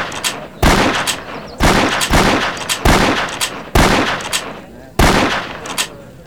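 Rifle shots fired rapidly in a timed marksmanship contest, six loud, sharp reports at slightly irregular intervals, each with a ringing, decaying tail.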